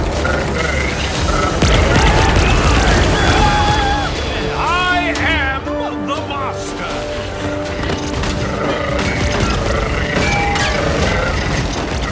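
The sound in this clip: Gunfire and booming blasts in a science-fiction audio drama battle as figures march through a portal: a loud, dense, continuous barrage with whooping electronic tones and shouting voices over it.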